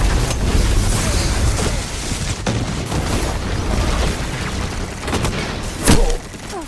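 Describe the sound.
Heavy gunfire and booming blasts fill a Destiny 2 video game match, with a Golden Gun super shot rising as a sharper, louder crack near the end over the continuous roar of combat.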